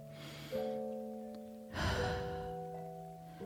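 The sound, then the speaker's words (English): A slow deep breath, soft and airy, rising as two breathy swells over sustained gentle music tones, with no talking. “take a deep breath”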